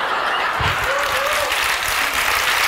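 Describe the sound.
Audience applause in a seated hall, a loud and even rattle of many clapping hands that carries on without a break.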